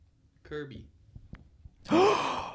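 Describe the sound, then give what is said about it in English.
Kirby's inhale sucking sound effect from a video game: a loud, breathy suction whoosh with rising whistling tones that swells in the final second and then tails off, after an earlier short tonal blip. “Oh, it's Kirby's inhale. Sucking noise.”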